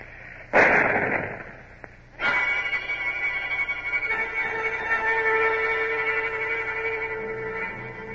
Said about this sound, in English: Signal gun ready. Fire!